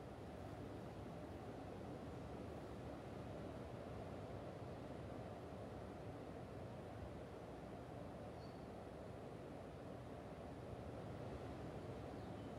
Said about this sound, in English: then just visualize or imagine the sound of either running water or hear the waves in the background.